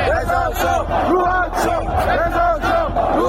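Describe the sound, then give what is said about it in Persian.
Angry football spectators in Isfahan chant "Reza Shah, rest in peace" in unison, a loud crowd of voices repeating the slogan in a steady, rhythmic cadence that does not let up. “تماشاگران عصبانی اصفهانی که به این درخواستشون احترامی گذاشته نشد در ادامه شعار رضا شاه روحت شاد سر دادن.”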